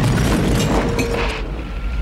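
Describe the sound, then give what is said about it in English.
Helicopter falling and exploding in a film action scene: a loud, continuous deep rumbling roar fills the whole stretch, easing only slightly toward the end. “The helicopter falls and explodes.”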